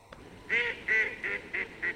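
A northern shoveler duck calls five times in quick succession. The short, nasal, honking notes are fairly loud and evenly spaced, with no other sounds around them.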